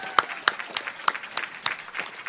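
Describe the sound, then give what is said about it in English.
Scattered audience applause at a convention, a few sharp claps rising over a low crowd murmur and then thinning into sparse, uneven clapping. “give yourselves a big round of applause for that”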